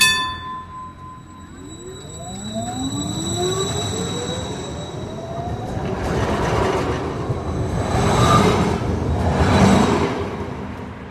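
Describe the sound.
A Combino city tram runs along with a rising electric whine over a steady rolling rumble. The rumble grows louder and swells twice toward the end as the wheels roll on.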